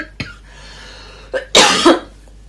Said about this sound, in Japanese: あー咳出た